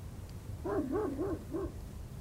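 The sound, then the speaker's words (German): Dog barking: four faint, short tonal barks in quick succession, each arching up and down in pitch over a low background hum. “Ein Hund. Hoffentlich ist hier nicht in der Nähe noch einer.”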